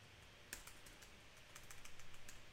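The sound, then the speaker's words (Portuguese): Typing on a computer keyboard: many faint, rapid key clicks that come in an uneven patter, growing denser and more rhythmic toward the end, with no talk. “É, eu já vou escrevendo aqui o próximo comando, tá?”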